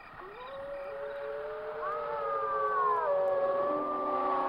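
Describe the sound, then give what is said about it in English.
Eerie howling outside at night among misty trees: several overlapping long, gliding tones waver and bend over a low rumble, growing steadily louder toward the end. “Outside, something was howling. Only trees and fog are visible. Shh, listen. The wind.”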